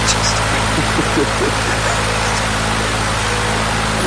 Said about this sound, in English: I just turned my fan on.